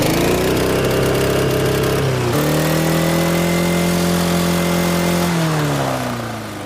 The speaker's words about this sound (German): Ich habe gar nicht gewusst, dass ein Rasenmäher einen Begrenzer hat. Puh, das gibt's. Aber nicht bei allen, aber bei dir schon. Starten wir mal an. Jawohl. So, und jetzt Begrenzer.